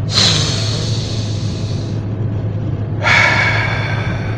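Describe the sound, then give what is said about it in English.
Two long, loud breaths during a guided deep-breathing exercise on a marathon walk: a deep rushing breath and, after a short pause, an airy exhale through the mouth, over a steady low hum. “Inhale. Exhale through the mouth. One more. Deep one.”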